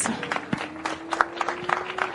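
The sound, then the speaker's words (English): Audience applause at a motorsport podium ceremony for a junior race winner, fairly faint and scattered, with a few sharper individual claps standing out. “And for our junior winner out here today, another round of applause for Maxime Durex.”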